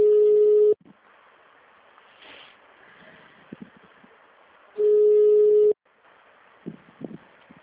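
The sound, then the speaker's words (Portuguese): Telephone line tones sound during a call transfer: two steady, mid-pitched tones, each lasting under a second, separated by a few seconds of faint line hiss and soft, scattered low sounds. “Estamos transferindo sua ligação.”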